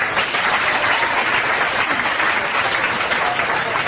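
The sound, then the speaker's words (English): Audience applause at a live comedy performance: dense, even clapping from many hands, held steady from start to finish with no talk over it. “My mom and dad are in the audience tonight. Everybody give them a hand.”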